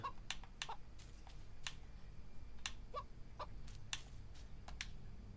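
Faint clucking from a chicken in a video game, a few soft clucks scattered among frequent sharp keyboard and mouse clicks over a low background hum.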